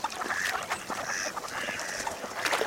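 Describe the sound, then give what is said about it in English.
Peeping calls from baby geese, goslings leaving the nest, come as many quick, high chirps in a busy, overlapping stream that runs throughout at a steady, moderate level. “These baby geese, or goslings, are leaving the nest.”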